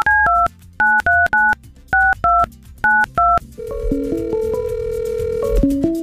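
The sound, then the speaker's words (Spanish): Telephone keypad tones as a number is dialed, a quick run of short, bright beeps in uneven groups, followed by longer sustained electronic tones on the line. “Te voy a marcar, contéstame.”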